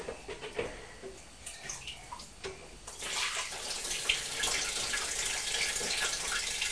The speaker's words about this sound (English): Is that splashing? Yes.